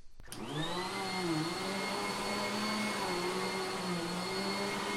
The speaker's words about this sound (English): Someone doing the vacuuming.